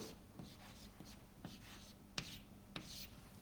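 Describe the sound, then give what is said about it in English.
Writing a formula on a board: faint, scratchy strokes in short bursts, with a few sharper taps as marks are made, quiet and steady. “I'm just writing this down to the board because we'll use that formula later on a couple of times.”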